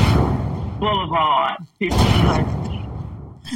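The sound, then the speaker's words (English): Gunshot sound effects, played as a joke about a motorcycle, sound as a few loud booming bursts. They are mixed with people talking and break off briefly in the middle. “Those are gunshots for whatever kind of motorcycle she got.”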